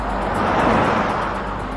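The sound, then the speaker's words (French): Two cars pass each other on a road, a brief swell of engine and tire noise that peaks and fades within a couple of seconds, with no voices. “Les deux véhicules se croisent.”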